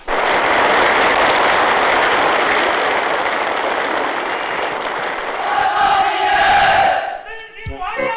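A crowd cheers and applauds at an evening gala to welcome a renowned general of the anti-Japanese war. The dense, loud roar holds steady for several seconds, then tapers off near the end.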